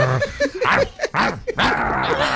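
High whining yips and whimpers from a drooling dog begging, arriving in a quick irregular string of many short rising-and-falling cries, fairly loud and with no talk over them.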